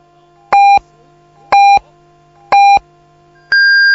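Radio time signal beeps before the five o'clock announcement: three short, identical mid-pitched beeps about a second apart, then one longer, higher tone, loud and clean.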